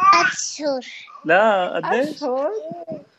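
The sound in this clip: A 3-year-old girl babbling, with bursts of high, sing-song vocal sounds that rise and fall in pitch and are broken by short pauses.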